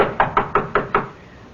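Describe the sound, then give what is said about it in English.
Five firm knocks sound on a door in an evenly spaced, unhurried rhythm. Each knock is a sharp, hollow rap that decays quickly, followed by a brief quiet pause. “knock on the door. Again.”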